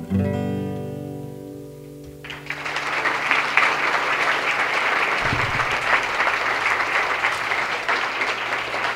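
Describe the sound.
A studio audience applauds after a live song: a held musical note rings out, then dense, steady clapping rises and continues at an even level to the end.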